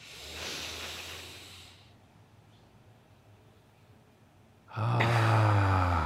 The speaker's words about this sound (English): Let's take a good deep breath together.